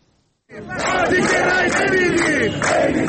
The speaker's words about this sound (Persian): تجمع کارگران و بازنشستگان معترض در مشهد